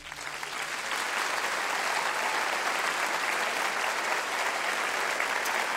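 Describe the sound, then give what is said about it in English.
Applause from a church audience welcoming a guest pastor: many hands clapping in a dense, steady roar that swells in quickly and holds at an even level throughout. “But there was just applause. I don't think I've ever had applause at the own church I pastor,”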